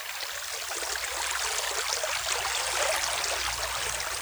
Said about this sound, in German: Es rauscht der Bach.